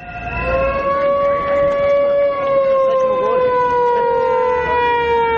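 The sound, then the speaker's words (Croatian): Sirens wail at an opposition street protest outside the state television building in Serbia, where several hundred people gathered with banners. The loud, sustained tones drift slightly in pitch over a dense, noisy background. “Saveza za Srbiju je, noseći transparente i uz zvuke sirena i pištaljki”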